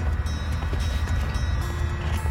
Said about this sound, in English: this is the best sounding engine. Just get us in the air.